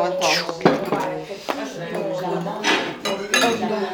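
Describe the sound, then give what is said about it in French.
Dishes and cutlery clink and clatter as a plate is assembled and a serving tray is fetched, in a steady stream of small knocks under French-speaking voices. “Ouais, tu peux aller chercher le plateau. On va essayer de faire une assiette avec tout.”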